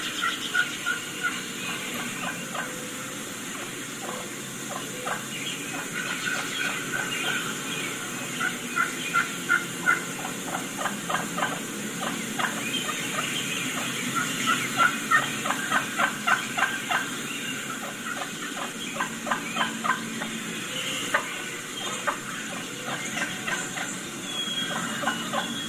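Wild turkeys give soft, light clucks and purrs from under the breast, many short calls repeating irregularly over a steady hiss, with no voices.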